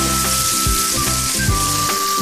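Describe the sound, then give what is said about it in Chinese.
Steady, loud sizzling of eggs being stir-fried over high heat with pepper, light and dark soy sauce and oyster sauce, a dense continuous hiss throughout with no voices. “还有就是生抽、老抽、蚝油。好了，大火炒出香味儿，”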